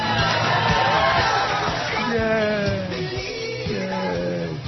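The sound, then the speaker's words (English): Subdued crowd cheering at a presidential campaign announcement, scattered yells and muted whoops of a few voices rather than a full roar. “Yeah, that was the most subdued yay I think I've ever heard.”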